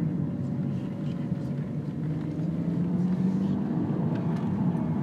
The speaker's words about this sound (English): We're driving in the direction of the Cliffs of Moher, and we're going round the Rocky Road roundabout.